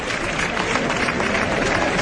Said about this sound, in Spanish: Y Andrés recibiendo la ovación del público